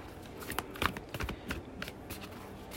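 A deck of cards being shuffled: a quiet, irregular run of short papery riffles and flicks, alone, without talk.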